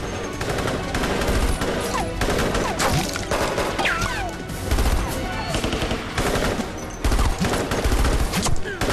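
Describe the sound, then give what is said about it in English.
Heavy gunfire from several guns in a firefight, with attackers shooting from various vantage points: dense, overlapping rapid bursts and single shots crackle loudly and continuously, with no pause throughout. “The terrorists fire on them from various vantage points and angles.”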